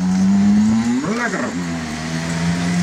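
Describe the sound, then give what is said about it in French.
Electric delivery scooter for a pizza chain in the Netherlands, giving a steady low motor hum that briefly swoops up in pitch and back down mid-clip before settling into its even drone again. “Domino's Pizza. Scooter électrique de Domino's Pizza aux Pays-Bas.”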